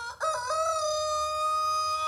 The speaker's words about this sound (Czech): Zakokrál kohout a jak zvedl hlavu na to kokrhání